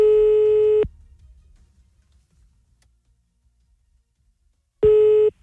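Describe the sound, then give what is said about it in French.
Ringback tone of a telephone call being placed: two long, steady, loud electronic beeps, one at the start and one at the end, separated by about four seconds of near silence. “C'est parti, on y va, on appelle ta mère.”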